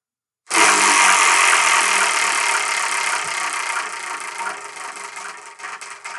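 A prize wheel spins with a dense whirring rattle that starts abruptly and loud, then slowly loses speed until separate ticking clicks can be heard near the end.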